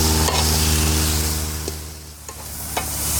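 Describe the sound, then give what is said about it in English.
Onions and carrots sizzling on a grill at medium-high heat: a steady, loud crackling hiss throughout, with a faint low hum beneath and a few small pops. “With the veggies prepared, it was off to the grill. All right. So we're going to start with the onions. And the carrots.”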